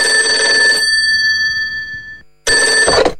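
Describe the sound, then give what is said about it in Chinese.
A telephone on a desk rings with a loud, bright electric bell: one burst that trails into a fading tone, a short silence, then a second burst. “桌上的电话铃声响了，是幼儿园园长打来的”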